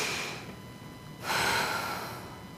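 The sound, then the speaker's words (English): A deep breath drawn in at a prayer gathering: a soft, airy rush that swells sharply partway through, then slowly tapers off, with no talking. “Will you breathe in? Take a deep breath with me.”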